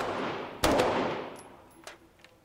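Gunfire from a magazine being emptied at a shooting range: one sharp, loud report with a long ringing decay, then a couple of fainter shots.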